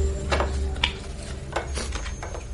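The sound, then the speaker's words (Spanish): A few light, crisp slaps and taps as a tarot deck is cut and shuffled by hand, brief bursts spread over a quiet background with no talking. “algunos de los arquetipos que nos puedan salir en este mazo de cartas. Vamos a hacer un pequeño corte. Vamos a mezclar.”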